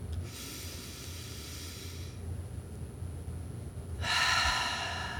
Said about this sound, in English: just take a big, deep breath.